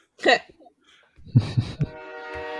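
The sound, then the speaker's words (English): A train horn blares as a sustained, steady harmonic blast in the second half, after brief vocal sounds and a few low thumps. “The train has spoken.”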